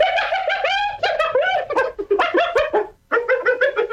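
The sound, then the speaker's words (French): A hyena calls in a rapid run of high, chattering, bird-like yelps, many short harmonic bursts tumbling together, with a brief gap before a final quick series. “Alors, voici pour commencer le son d'une hyène.”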